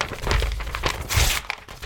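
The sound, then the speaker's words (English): Crinkling and tearing of wrapping paper as a wrapped Christmas present is opened, a steady run of crackly rustles with a few louder crunchy bursts and no voices. “Now, the issue here is, of course, that it's wrapped and I can't explain the question to you without you opening it. I shall unwrap it.”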